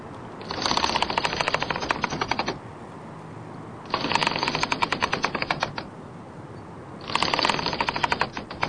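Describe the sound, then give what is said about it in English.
A catapult being wound up ready to fire makes three bursts of rapid, loud ratcheting clicks, each lasting about two seconds, separated by short pauses. “That's the catapult ready to fire. When you're ready, Miss Ayres.”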